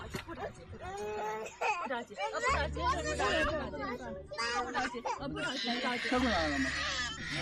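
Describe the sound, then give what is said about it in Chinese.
A young child stuck in a wooden park bench wails loudly in long, rising and falling cries, while adults talk nearby and a steady low hum runs underneath for parts of the scene. “您听出来了，没错，孩子还是被卡了，哇哇大哭啊，哭得厉害，因为孩子小啊。”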